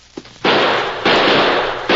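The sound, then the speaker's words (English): Gunshots from a Winchester rifle and a six-shooter revolver: three loud, harsh blasts spread across two seconds, each ringing on as a sustained noisy burst, preceded by a faint small pop. “It's good I carried the Winchester. Here. Let me use that six-shooter you're carrying.”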